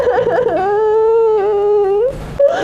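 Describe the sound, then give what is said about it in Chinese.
A person cries, letting out a sustained, wavering voiced wail with a quivering pitch. It breaks off into a breathy, sobbing gasp at the end. “别哭了”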